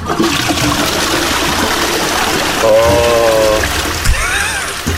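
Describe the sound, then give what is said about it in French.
A toilet flushing with a loud, steady rush of water throughout, broken by brief whistling tones from the cistern partway through. “Faut toujours tirer la chasse quand il y a eu un gros caca.”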